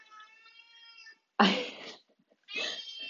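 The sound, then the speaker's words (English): A pet cat desperate to go outside meows three times: first a steady, tonal meow, then two louder, rougher, breathy yowls separated by short silences. “Although sometimes when he meows like that,”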